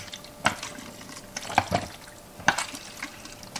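Liquid sloshes inside a film developing tank as it is inverted with processing chemicals: a few short, splashy swishes separated by quieter gaps, with no voices.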